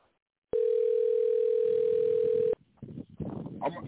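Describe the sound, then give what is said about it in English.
A telephone dial tone sounds while a call is placed: a steady, single-pitched hum lasting about two seconds that cuts off abruptly, followed by muffled shuffling noise. “I'm trying to get Trigger on the phone.”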